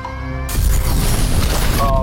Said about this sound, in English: There goes the bomb.